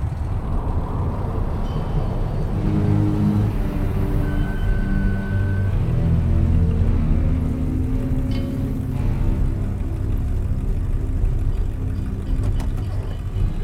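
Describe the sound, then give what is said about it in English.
A Ford pickup truck carrying three people drives up along a narrow road under autumn trees and slows down, its engine a steady low rumble with road noise that continues throughout. “As they walk beneath autumnal trees, the Ford pickup truck with all three strangers in it drives up to them and slows down.”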